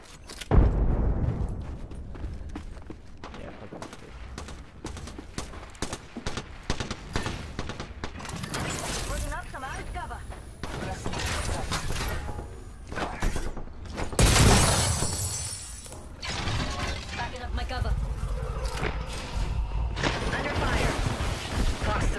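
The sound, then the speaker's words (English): Video game gunfire and a frag grenade explosion: many rapid, sharp shots and mechanical clatters go on throughout, with one louder, broad blast partway through amid the steady barrage. “Under fire. Scanning the area. Bandit close by, visual clear. Frag grenade set.”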